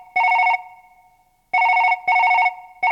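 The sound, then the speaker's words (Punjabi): Ringback tone of an outgoing telephone call: short, clear electronic trilling bursts, four in all, with the last cut off. A long gap follows the first burst, then the next ones come in quicker pairs. There is no talk. “ਮੈਂ ਮੱਦੀ ਨੂੰ phone ਕਰ ਲਾਂ।”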